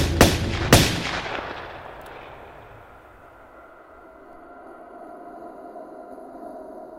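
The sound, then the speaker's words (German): Two sharp, loud gunshots crack in quick succession, under a second apart, each followed by a long fading reverberant tail that settles into a low, quiet rumble. There is no talking. “Der Chauffeur, einer aus Wolfsheims Verbrecherbande, hörte die Schüsse.”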